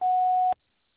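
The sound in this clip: A single steady beep from a telephone answering machine holds one constant pitch for about half a second and cuts off abruptly into silence.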